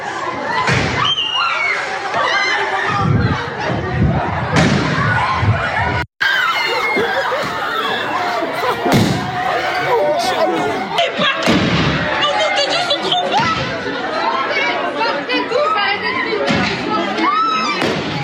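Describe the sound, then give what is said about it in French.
Firework mortar shots go off inside a high school in Chelles, Seine-et-Marne. A few sharp booming bangs cut through a continuous clamour of agitated student voices and shouts. “La première, c'était ce matin, lycée à Chelles, on est en Seine-et-Marne, avec des tirs de mortier d'artifice à l'intérieur du lycée. Regardez la réaction des élèves.”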